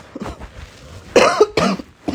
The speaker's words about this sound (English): cough. As you can hear it already, so I will be coughing a lot in your ears.